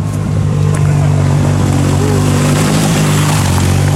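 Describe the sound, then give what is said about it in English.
A BMW GS motorcycle passing on the road, its engine merging into a loud, steady low drone of engine rumble that fills the whole clip. “That is a BMW GS of some description passing us.”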